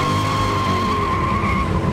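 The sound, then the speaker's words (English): Cars in a drag race with tires skidding: a steady, high-pitched screech of rubber held over a continuous, loud engine roar. “On Jay Leno's Garage, he and Joe Biden, then the vice president, challenged each other to a drag race.”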